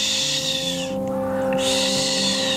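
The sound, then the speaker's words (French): A barn owl's hissing screech comes as two long, raspy, breathy calls split by a short gap, over a steady low drone. “Donc c'est la dame blanche, celle qui chuinte, hein, et qui effraie, comme son nom l'indique, par son chuintement.”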